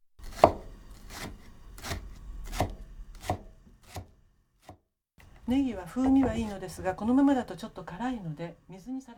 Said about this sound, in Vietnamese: Cuối cùng, chúng ta sắc hành baro. Hãy sắc thật mỏng thành những vòng tròn.